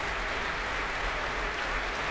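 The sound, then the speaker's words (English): Warm applause greets conductor Osmo Vänskä on stage at the Proms, a dense, even clapping that holds steady throughout. “And, well, just listen to that. That's a real Proms welcome. Osmo Vanska back on stage.”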